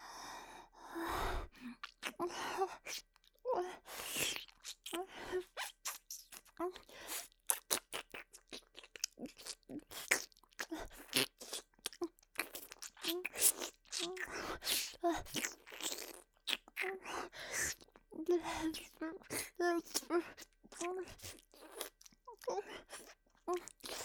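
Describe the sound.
Wet ASMR mouth sounds from ear-eating and ear-licking: an irregular stream of many soft clicks, smacks and slurps, with occasional breaths, quiet and intimate throughout.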